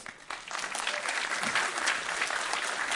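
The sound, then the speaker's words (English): Applause from the Grace Community Church audience welcoming children up to the platform, a dense, steady patter of many hands clapping that rises quickly after a brief quieter start and holds at full strength. “Grace Community Church, why don't you welcome them up?”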